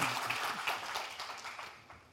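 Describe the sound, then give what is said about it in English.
Audience applause welcoming presenters to a stage at a technical talk, a quiet patter of many claps that starts fairly full and thins out, fading steadily toward the end. “let's welcome them to the stage and give them a nice round of applause”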